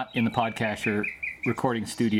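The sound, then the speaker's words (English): Birds singing in a Southern California backyard in the morning, short bright chirps heard between and under people talking. “Can you hear those birds? Yeah. They're really loud this morning.”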